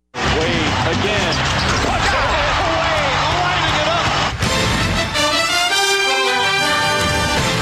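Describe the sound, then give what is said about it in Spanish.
A loud, dense theme jingle for NBA professional basketball pounds with bouncing-ball thuds and crash-like hits, then turns brighter and more tonal about halfway through. “dame la musiquita del baloncesto profesional de la NBA”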